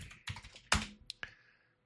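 Typing on a computer keyboard: a short burst of a few clacking keystrokes with one louder, heavier hit, then two sharp isolated clicks before the sound fades to quiet.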